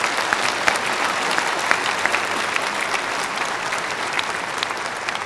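Audience applause at a live event, steady and dense clapping from a crowd with no break, holding an even, fairly loud level throughout with no talk over it.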